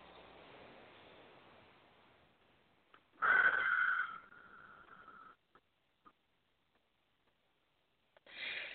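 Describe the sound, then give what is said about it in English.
A single deep breath during a guided affirmation meditation: a soft airy rush swells briefly after a quiet hiss, then trails off into near silence with a few faint ticks. “Take a nice deep breath.”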